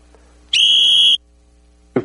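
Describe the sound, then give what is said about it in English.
A whistle is blown once in front of a gathered audience. It gives a single shrill, steady tone that lasts a little over half a second and stops abruptly, leaving near silence afterward. “blow the whistle. Okay? I'm gonna be careful with the whistle now.”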